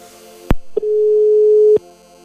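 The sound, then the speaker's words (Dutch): A telephone call rings out on the line: a sharp click, a brief beep, then one steady mid-pitched tone about a second long before it cuts off to quiet. “En volgens mij gaan we iemand bellen.”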